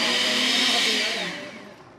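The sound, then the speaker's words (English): A blender blending peeled papayas for picante sauce whirs with a loud, steady high roar that winds down and fades over the final second. “He peels the fruit and pops it into a blender in order to make a picante sauce.”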